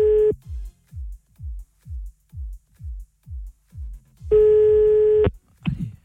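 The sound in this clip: Telephone line tones as a call is placed: a short tone, then a steady run of eight low, evenly spaced pulses, followed by a sustained ringing tone lasting about a second.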